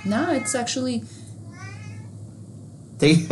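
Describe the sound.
A single drawn-out cat meow sounds between stretches of a person talking, soft and mid-pitched, with speech just before and a loud voice right after.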